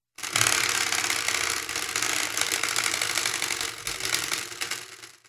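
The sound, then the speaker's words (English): Rapid ratcheting clicks of a spinning prize wheel run as a dense, steady clatter for about five seconds, briefly dipping near the end before continuing. “The spinny wheel has landed on programmatic secularism.”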